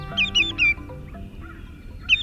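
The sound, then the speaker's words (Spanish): A greater yellowlegs, a shorebird, calls with a quick series of clear, high, downslurred whistled notes. Another short burst follows near the end over a low, steady background. “la pata amarilla mayor es un ave costera con patas y pies amarillos brillantes”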